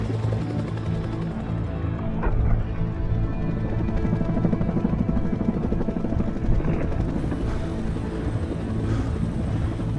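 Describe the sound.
A helicopter carries the Alpha unit over a burning forest, its engine and rotors giving a loud, steady, continuous thrum with a deep rumbling drone throughout.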